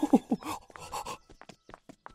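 A man pants hard after running off with a huge book: a few voiced, gasping breaths at first, then a series of quicker, fainter breathy huffs.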